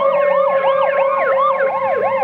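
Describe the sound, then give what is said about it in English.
An ambulance siren arriving at a road crash scene wails in quick, repeating up-and-down sweeps, loud and unbroken throughout. “An ambulance arrives.”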